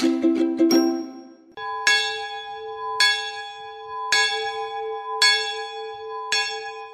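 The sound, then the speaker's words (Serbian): An old village church bell rings: a quick cluster of clangs, then five slow, evenly spaced strokes, each leaving a long, bright, humming ring. “Gradinsko zvono staro je čitavik, Na oglašavanje zvona Čeljec se prikrstila s pogledom u nebo. Zvonilo se kad god tri put na dan i svaki put kad naiđu tamni oblaci.”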